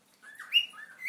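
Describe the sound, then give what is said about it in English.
A pet cockatiel calls with a few faint, short whistled chirps that rise and fall in pitch, alone without talk. “That noise you can hear, folks, is Dixie the cockatiel.”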